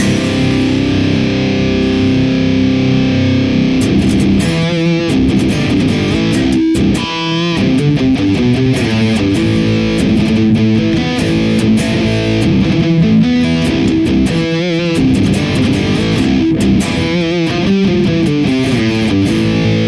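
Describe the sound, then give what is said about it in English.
Heavily distorted electric guitar played through a Neural DSP Archetype amp plugin with a blended impulse response pairing Rat Gargantuan and ODR Klon Green KT88 cabinets. A loud, crunchy riff mixes tight chugs and ringing chords, with no voices. “we are using our fifth blended impulse response, and that is going to be the Rat Gargantuan on the left and the ODR Klon Green KT88 on the right. Neural DSP, archetype of Bossy, sounds like this.”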